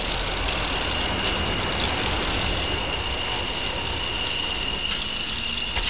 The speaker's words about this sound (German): Die drei Fragezeichen fuhren kreuz und quer durch Santa Monica.